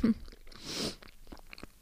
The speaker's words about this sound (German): Vorher esse ich nochmal ein Stück Banane. Ich rede jetzt mal mit vollem Mund.